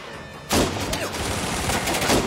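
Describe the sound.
Rapid gunfire from a shooting video game erupts suddenly and continues as a dense, unbroken volley of loud shots, with no talk over it.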